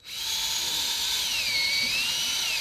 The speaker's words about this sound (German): Die Handwerker im Plenarsaal schrauben ohne Hektik an den blauen Stühlen und grauen Tischen herum.